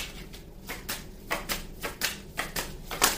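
Tarot cards being shuffled and drawn during a reading, heard as a run of soft, crisp riffling and tapping bursts that recur unevenly and stay fairly faint, with no talking.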